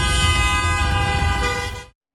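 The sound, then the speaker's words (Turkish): Car horns honk in stopped traffic on the road toward Avcılar. A steady, harmonically rich horn tone holds for about two seconds over low engine rumble, then cuts off abruptly. “Bazı sürücüler de korna çalarak tepki gösterdi.”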